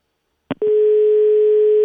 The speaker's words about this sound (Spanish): No, vamos a intentar otra vez, porque no dio tono bien de marcar.